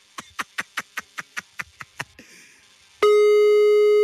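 A telephone call rings out on the line while waiting for an answer: a rapid, evenly spaced run of ten short beeps, a brief burst of hissing noise, then a loud, steady electronic tone held for about a second.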